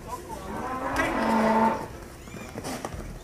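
A bull bellows during a teacher's risky demonstration with students in Nuevo León, Mexico, a single drawn-out low moo that swells in loudness and then fades, followed by quieter rustling.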